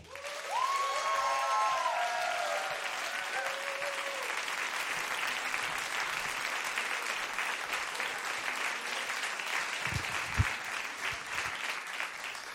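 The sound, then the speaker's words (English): Audience applause for a performer at a stage show, sustained, even clapping that continues for about twelve seconds without letting up. “A big applause for Dutsi!”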